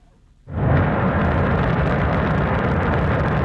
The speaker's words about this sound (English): That's the sound of China's Shenzhou 23 rocket blasting off on Sunday from the Jingguan Launch Center in Inner Mongolia.